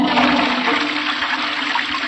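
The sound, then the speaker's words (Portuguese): A toilet flushes in one continuous, loud rush of water that holds steady for the whole two seconds. No voices are heard. “Descarga.”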